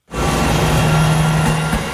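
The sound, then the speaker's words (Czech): A Regio Spider diesel railcar departing the station in Telč: a steady low engine hum over broad rumbling noise starts abruptly and holds at an even, fairly loud level. “Z nádraží v Telči odjíždí motorový Regio Spider.”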